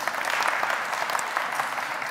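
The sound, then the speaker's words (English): Church audience applause for a volunteer called up front: continuous, even clapping from many hands, moderately loud and sustained without pause. “Well, a round of applause for Turkey Man.”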